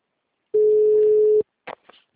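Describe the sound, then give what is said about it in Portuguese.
Ringback tone on an outgoing telephone call: one steady mid-pitched tone lasting just under a second, followed by a few brief, faint clicks and noises on the line. “chamando aqui aí, tá chamando?”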